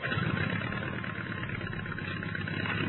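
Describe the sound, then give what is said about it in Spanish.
Droning engine rumble as the Red Baron's World War I fighter planes start their engines before a final mission, a steady, dense low roar that holds at an even loudness throughout with no breaks. “todos han preparado cuidadosamente sus aviones, sin saber todavía que era la última misión para su líder, arrancan los motores”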